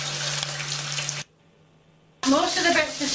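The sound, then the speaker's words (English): Eggs fry in lard in a pan with a loud, steady sizzling hiss. The sizzle drops out for a short quiet pause, then returns strongly, and a voice seems to join near the end. “Now I am doing the egg, cracking eggs into a pan. Oh, lard.”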